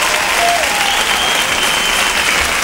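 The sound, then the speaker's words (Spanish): Audience applause at a live music event, a dense, steady wall of clapping that stays loud and even throughout, with faint crowd voices mixed in. “Un aplauso fuerte para mi gente.”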